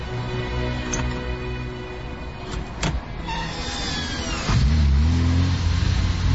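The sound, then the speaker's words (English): A manual-gearbox Ferrari pulls away after the clutch is popped in second gear. A few light clicks and rattles come first, then the engine note jumps louder at about four and a half seconds and settles into a low, revving drone. “Drop her into neutral. Slide her into second. Pop the clutch.”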